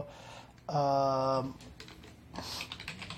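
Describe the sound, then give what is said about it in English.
Typing on a computer keyboard: a run of quick key clicks with a short voiced tone near the start and more clicking afterward, all at moderate loudness. “I'll type the Discord. I think the Discord link was already posted.”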